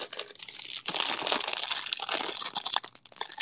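Crinkling and crackling of a Hostess snack cake wrapper being opened and the snack eaten, a dense, continuous rustle with many sharp crackles throughout, fairly loud and with no talk.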